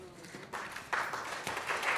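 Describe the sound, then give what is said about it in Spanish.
A church audience applauds visiting guests, the clapping starting faint and swelling in a couple of steps into a steady patter. “Bueno, se demoraron bastante en decidirse, ¿eh? No es que usualmente aquí no aplaudimos a nadie”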